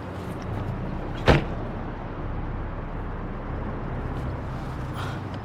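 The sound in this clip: A car door shuts as someone gets into a car, giving one short sharp thud over a steady low rumble that continues unchanged afterward.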